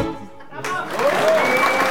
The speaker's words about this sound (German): Ja, viel Applaus gibt's da im Studio auf dieses Glas Wein oder Bier, das gönnen wir uns jetzt auf 25er Freies Radio.